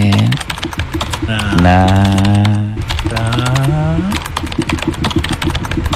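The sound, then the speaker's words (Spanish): Rapid typing on a QWERTY computer keyboard in a doctor's office, with many quick, crisp key clicks over a steady tonal hum that rises and falls. “El teclado, QWERTY. Bueno, a ver, ay, ahora doctor, sí saco el teclado. ¿Saca el teclado?”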